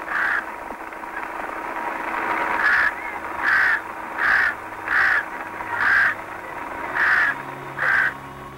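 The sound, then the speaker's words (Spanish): Crows caw over a cyclone-struck mass grave in Pakistan: a steady series of harsh, evenly spaced caws, about one a second, rising above a constant hissing background noise. “Simplemente del graznido lúgubre y fúnebre de los cuervos que se han hecho dueños de la soledad miserable y doliente allí en la gran tumba”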